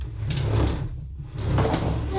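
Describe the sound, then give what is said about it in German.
A desk being pushed across the floor against a wall makes a loud, sustained, broad scraping drag in two long pushes with a short pause between them. “Lass uns doch mal den Schreibtisch da an die Wand drücken.”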